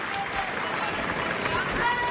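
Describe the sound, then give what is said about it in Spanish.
Applause from a tennis crowd during a match, as Sinner serves in the third set. Dense, steady clapping fills the whole stretch at an even level. “Aplausos.”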